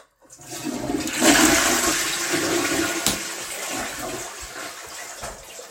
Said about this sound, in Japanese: トイレの方に流していいですか。